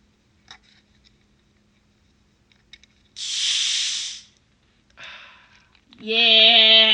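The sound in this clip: Fizzing hiss from a bottle of orange cream soda being opened after it was first opened the night before: one strong burst of gas lasting about a second, a shorter hiss after a pause, then a voice.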